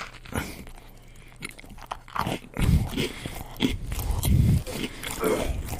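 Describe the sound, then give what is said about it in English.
Crunching and chewing while eating a dip: loud, wet crunches that are spaced out at first, then come in heavier bursts of chewing in the second half. “Today, chowing down on the triple dipple dip. Oh, yeah. Listen.”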